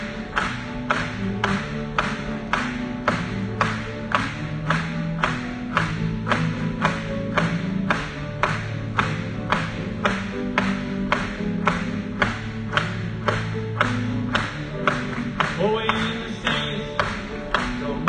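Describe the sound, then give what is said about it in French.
An audience claps steadily in time with a lively song. Many even, regular claps repeat over continuous music for the whole stretch. “Acclamons pour lui.”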